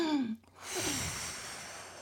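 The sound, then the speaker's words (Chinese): Slow, deep breath demonstrated by a caregiver for an elderly patient: a short voiced note, then a long, soft, airy rush of breath lasting over a second, fairly faint. “慢慢深呼吸，来跟着我，跟着我。”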